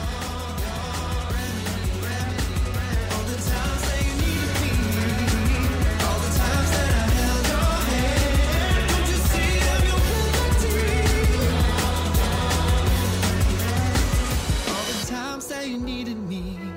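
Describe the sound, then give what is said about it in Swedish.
An intro jingle plays as steady music with a firm bass line and bright layered tones, holding an even level before cutting off abruptly near the end into a short, quieter tail. “Jag tror jingeln får nog bara smyga sig på liksom. Jag tror det är det bästa.”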